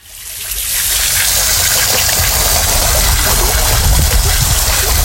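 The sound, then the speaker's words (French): Water rushes in a steady spray from a water dragon spitting a jet of water, loud and continuous throughout with a low rumbling undertone and no talk. “C'est un dragon d'eau, c'est pour ça qu'il crache de l'eau.”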